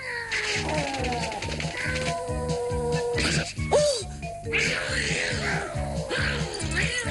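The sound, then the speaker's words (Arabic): A cat meows and yowls several times in drawn-out, wavering cries, sounding over steady, rhythmic music. “أنت قط جبان. هيا، فصديقتك تراقبك.”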